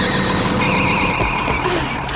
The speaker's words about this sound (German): So konnte sie die Mähmaschine rechtzeitig stoppen